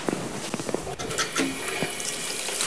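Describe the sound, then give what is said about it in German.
Hands being washed under a running tap: a steady rush of water broken by irregular splashes and spatters, fairly loud, with no talk. “Schön Hände waschen.”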